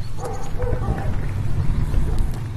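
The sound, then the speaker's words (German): A dog from a local electronics shop gives a few short barks over a noisy, rumbling background. “Das ist der Hund vom hiesigen Elektrohandel.”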